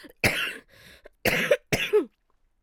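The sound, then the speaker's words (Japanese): Harsh coughing fit from one person: a short run of loud, explosive coughs separated by brief gaps, with a fainter breathy sound between the first ones, then silence. “ごめんな、ちょっと咳込んでもうた。”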